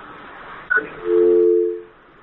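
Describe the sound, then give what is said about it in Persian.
Telephone line tone after a listener's call to a radio phone-in show is cut off: a brief click, then a single steady low beep lasting under a second over faint line hiss. “تماس این شنونده ما قطع شد.”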